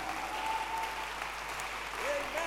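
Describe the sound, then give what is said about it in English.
Congregation clapping hands together during a Christian worship sermon, a steady, dense patter of applause that holds at an even level throughout with no break. “Can you clap your hands for Jesus?”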